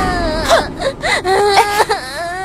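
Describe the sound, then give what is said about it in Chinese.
A young child cries and wails in wavering, high-pitched sobs that rise and fall in a broken rhythm. The crying is loud and continuous, with a constant low background hum underneath. “别哭了。”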